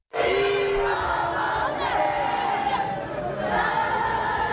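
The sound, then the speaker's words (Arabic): Football crowd chanting "Dima Maghrib" in unison outside Prince Moulay Hassan stadium in Rabat after the Moroccan women's team lost a semi-final. Loud, sustained massed voices with tonal chant lines run throughout. “دقائق من صمت بعد مغادرة ملعب الأمير مولاي الحسن في العاصمة الرباط قبل أن تردد الجماهير بشكل جماعي وبصوت عالي ديما مغرب”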